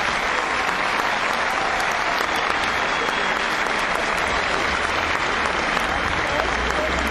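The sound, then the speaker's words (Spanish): Applause from an audience at a political gathering, a dense and steady wash of clapping that holds at an even level for the whole stretch, with no break and no clear voices on top. “Un gran aplauso para él.”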